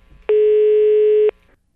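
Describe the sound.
A telephone call line tone: a single loud, steady, low buzzing tone with rich harmonics that holds for about a second, then cuts off, over faint background noise.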